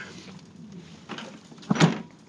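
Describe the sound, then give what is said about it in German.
An office window being shut, a brief scraping clatter with a short thud that rises out of faint steady background noise near the end. “Oh, jetzt wird hier das Fenster zugemacht.”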